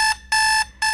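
Alarm clock ringing: loud, shrill electronic beeping in a steady on-off pattern, three bursts separated by short gaps.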